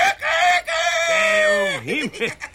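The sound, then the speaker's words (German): A human voice imitates a rooster crowing, a loud strained drawn-out cry that holds a steady pitch before breaking into a few wavering, warbling swoops at the end. “Und jetzt kommt noch ein Hahn.”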